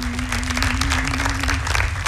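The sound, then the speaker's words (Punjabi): An audience claps during a comedy sketch, a dense and steady wash of many hands that keeps an even loudness throughout. “ਅੱਛਾ, ਤਾੜੀਆਂ ਮਾਰੋ ਤੁਸੀਂ।”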